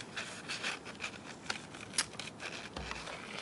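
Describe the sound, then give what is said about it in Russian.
A penknife cuts and scores along the edges of a paper page in a series of dry scraping strokes, with a couple of sharper crisp ticks standing out among the soft rasping. “Берем перочинный ножик и отрезаем, отмечаем по краям этой первой страницы”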